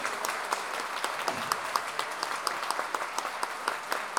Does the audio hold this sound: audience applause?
yes

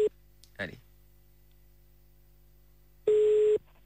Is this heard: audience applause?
no

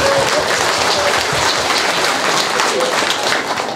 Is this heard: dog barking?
no

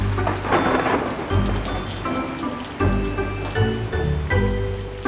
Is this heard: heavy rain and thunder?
yes

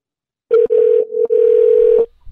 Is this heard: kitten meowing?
no

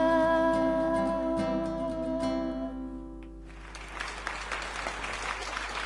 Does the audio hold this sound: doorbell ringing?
no

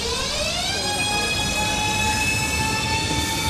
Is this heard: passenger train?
yes

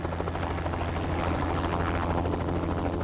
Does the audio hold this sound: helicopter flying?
yes

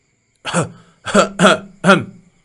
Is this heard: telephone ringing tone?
no

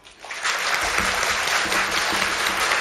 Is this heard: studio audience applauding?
yes

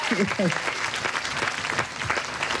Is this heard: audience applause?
yes

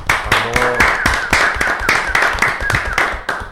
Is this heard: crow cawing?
no

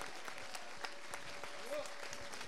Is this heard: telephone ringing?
no

